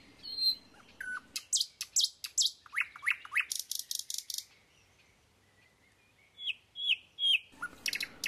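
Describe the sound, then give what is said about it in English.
Birds chirping outdoors at a curbside in Bermuda: quick runs of high, sharp tweets in clustered phrases, separated by brief quiet pauses, with the calls fairly faint overall. “They just stood there, listening to the birds chirping and enjoying the environment they were in.”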